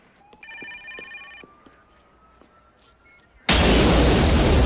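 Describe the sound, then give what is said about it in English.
A telephone rings once inside a building, a short electronic trill, followed by quiet until a sudden loud explosion tears through the top floor and roars on to the end. “A phone in the building is ringing.”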